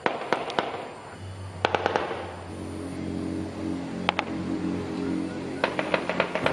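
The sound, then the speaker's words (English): Gunfire inside a jail in Los Teques, Venezuela, with many sharp cracking shots in quick bursts, some in tight clusters and some spaced apart, over a low steady hum. “This is the sound of gunfire inside Los Teques jail.”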